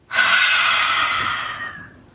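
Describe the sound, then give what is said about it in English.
Breathing in a paced nose-in, mouth-out exercise with the tongue sticking out: one long, loud, airy breath of nearly two seconds, steady at first and then gradually fading, with no talking. “So I'm going to inhale through the nose. One, two. And then exhale through the mouth, sticking out the tongue.”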